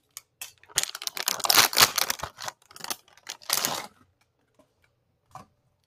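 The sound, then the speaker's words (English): Crinkling of a packet of seaweed snack (kim) being torn open: a dense run of sharp plastic crackles and rustles lasting about four seconds, then a few faint ticks and one last small rustle, with no talking. “That's the sound of me opening my seaweed, my kim.”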